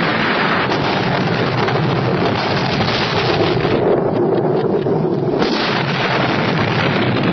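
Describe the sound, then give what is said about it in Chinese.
A ship exploding is rendered as a loud, continuous rumbling roar that holds steady throughout with no pause. “船炸了！”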